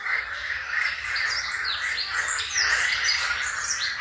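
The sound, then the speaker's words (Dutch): Green frogs call in a steady, dense chorus recorded in Posterholt, Limburg. Busy birdsong from blackcaps and chiffchaffs runs through it, with chirps and trills scattered over the whole stretch and the level staying fairly even. “En groene kikkers. Een geluid dat ons werd toegestuurd door Miep en Wim van Bergelen.”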